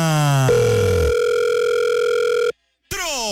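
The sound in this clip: A telephone ring tone on a call being placed, a steady buzzing electronic tone with bright harmonics that holds for about two seconds, breaks off into a short silence, then starts again.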